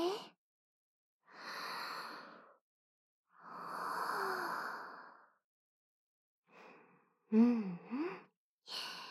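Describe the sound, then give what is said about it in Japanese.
Deep, slow breaths drawn in a calm, quiet moment: two long, soft airy breaths, then a few shorter breathy sounds, all heard alone without talk. “しばらくこのまま余韻に浸ってよっか。深呼吸して。”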